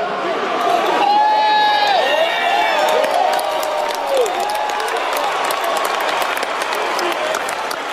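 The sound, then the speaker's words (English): A crowd at a live event boos and jeers while a man is escorted out. The loud, sustained roar of many voices carries scattered shouts and whistle-like whoops throughout. “He gets escorted out. Nice. What? And they're booing him.”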